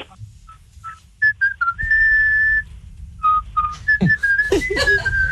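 A person whistles a French pop song during a radio phone-in game: a lively tune of many short notes and a few held ones, moving up and down in pitch over a low background rumble.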